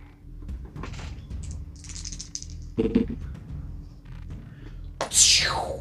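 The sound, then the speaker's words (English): Dice are rolled on a table during a tabletop role-playing game, making a couple of sharp rattling clatters, the last one loudest, with faint talk around them. “What was the dice roll for? Cure wounds.”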